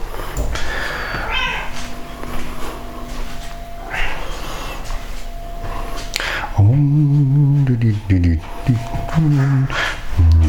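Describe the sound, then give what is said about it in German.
Cats meowing just before being fed, one due for wet food and two for dry; several drawn-out meows with bending pitch fill the later half, and a person speaks and moves about earlier. “so, jetzt kriegt meine Katzen kriegen erstmal was zu fressen. Also vielmehr Mia kriegt jetzt Nassfutter und die anderen beiden kriegen Trockenfutter.”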